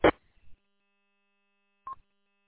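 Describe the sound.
Phone keypad tones while someone plays with a phone: a sharp burst at the start, then after a quiet pause a brief single electronic beep, over a faint steady hum.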